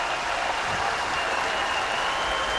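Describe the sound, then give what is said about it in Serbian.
A tennis crowd in Niš applauds the winner of the opening match with steady, even clapping that fills the whole clip, and no voices stand out. “evo čujete fon, čujete kako publika u Nišu sada pozdravlja pobednika prvog susreta Mijomira Kecmanovića.”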